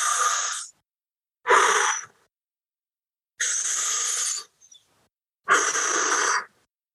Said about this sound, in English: Take a deep breath in.